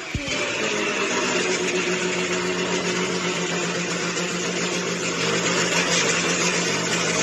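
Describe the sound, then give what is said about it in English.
Truck engine running, a steady rough drone at constant loudness with no revving or change in pitch throughout. “My truck's gonna sound like this.”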